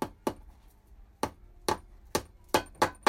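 A hammer drives a nail into wood blocks with a series of sharp, dry strikes. The blows are spaced irregularly, sparse at first, then come faster toward the end, each a short crack with a quick decay.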